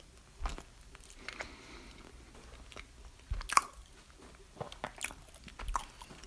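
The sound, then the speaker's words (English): Biting and chewing on a plain powdered donut: a few soft, crunchy bites stand out over faint, steady mouth sounds, all quiet and without talk. “Pretty substantial. A lot of form. Taste is dry, plain. It's a regular powdered donut.”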